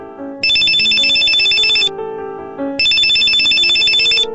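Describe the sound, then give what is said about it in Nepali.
An incoming-call ringtone plays on its own: a bright, loud, looping electronic melody in two long bursts separated by a short, quieter gap. “करणको phone आयो।”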